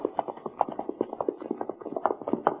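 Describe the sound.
Horses' hooves clop on the road during a long ride of several days, an even, rhythmic patter of many moderately loud hoof beats with no voices.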